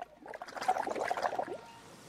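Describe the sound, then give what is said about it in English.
Bubbles blown through a straw into a cup of flat cola, a soft gurgling, bubbling burble that lasts about a second and a half before trailing off into quiet. “Yes, my soda's flat. It doesn't have any bubbles. She takes Harry's cola and blows through the straw.”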